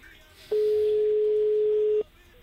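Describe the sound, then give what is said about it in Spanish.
A telephone ringback tone sounds on an old phone line during an outgoing call: one steady, mid-pitched electronic tone holds for about one and a half seconds, then stops, over a quiet background hiss. “¿Da tono? ¿Tenemos tono? Ay, pues ya. Ahí está. Segundo tono.”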